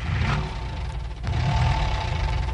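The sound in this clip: A car engine runs in a song's intro, a steady low, rough rumble with a brief dip near the middle before it swells back to full level, with no voices.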